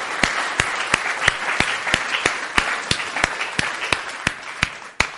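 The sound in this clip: Congregation applauding during a church service: dense, continuous clapping with a steady run of sharp, evenly spaced claps cutting through it, holding at an even loudness for several seconds with no talk over it.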